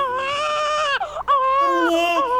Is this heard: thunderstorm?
no